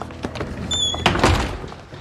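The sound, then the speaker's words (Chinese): A door being shut: a single dull thunk, moderately loud against a faint background hiss. “把门关上。”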